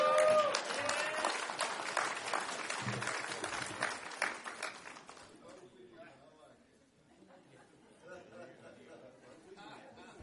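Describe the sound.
An audience applauds at a church sermon to welcome a preacher, with loud sustained clapping for about five seconds that then thins into murmuring chatter and a few claps.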